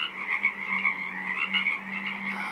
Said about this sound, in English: A 24-hour broadcast of the sounds of a small wetland on Saturna Island, British Columbia.